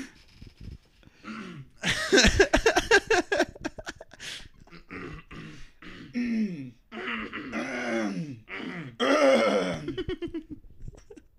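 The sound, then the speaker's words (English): Two people repeatedly clear their throats, with many harsh, rasping bursts and cough-like hacks mixed with groaning vocal sounds, continuing for several seconds. “we've both been trying to clear our throats off microphone for a while. Just pointing the microphone at the other person, trying to clear their throat.”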